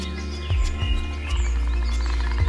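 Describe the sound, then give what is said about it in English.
Birds singing outdoors in the sun, a few faint high chirps scattered over a steady low background rumble. “listening to the sounds of the birds singing out there in the sun.”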